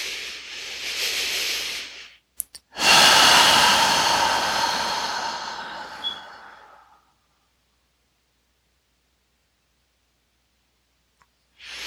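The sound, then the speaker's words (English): A slow, deep inhale during a guided breathing exercise. Two long, airy, hissing breath sounds are heard, the second louder and lasting several seconds, followed by silence. “last three together, inhaling.”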